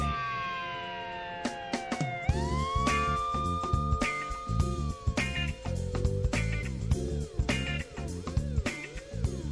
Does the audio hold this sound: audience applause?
no